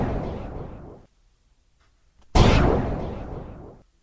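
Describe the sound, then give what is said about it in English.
Gunshots in a neighborhood ring out as two loud, booming blasts, each a sharp crack fading into a long rumbling decay, with near silence between them. “Gunshots, chaos, all that type of stuff.”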